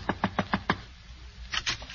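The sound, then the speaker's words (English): Knocking on a door: five evenly spaced, crisp raps, a short pause, then another quick series of knocks at a similar moderate loudness, with no voices. “Wildroot Cream Oil, so she disguised herself with a big hat and a veil and knocked at my door”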